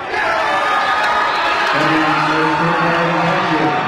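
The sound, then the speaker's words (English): A sports team gathered in a huddle chants together after a match, loud sustained group voices rising over a cheering crowd that keeps going throughout. “Incredible. They're all gathered around. One last little chant.”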